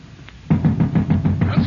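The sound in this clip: Knocking on a door as the king's watch arrives: after a brief quiet start, a long run of quick, firm knocks repeats in a steady rhythm to the end.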